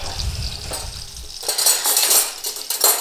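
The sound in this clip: Spoon and bowl clatter as a teaspoon of baking powder is measured into a bowl of flour: light metallic clinks and scrapes, growing brighter and more rattly in the second half.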